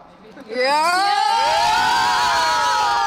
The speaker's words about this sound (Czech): holky, můžete nám teď ukázat, jak hlasitě dokážete fandit?